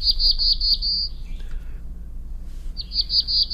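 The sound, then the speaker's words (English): Black-throated blue warbler song: a run of quick, high, buzzy notes, a pause, then another similar run, carried over a steady low hum. “the black-throated blue warbler, is experiencing some changes in its migration patterns”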